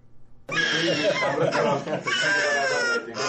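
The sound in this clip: A child crying during a polio vaccination in Farah city, a loud, continuous, high-pitched wail that starts abruptly and keeps going for about three seconds.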